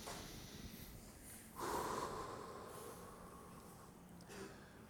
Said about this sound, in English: let's take another deep breath.